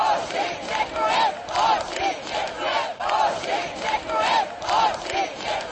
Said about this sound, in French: Lundi, en fin d'après-midi, à leur retour, les joueurs ont été accueillis comme des héros sur la place de la vieille ville. « Merci les gars », a scandé le peuple radieux.